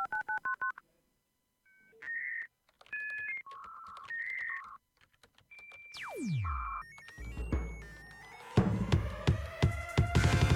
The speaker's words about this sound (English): Please dial *611 for assistance.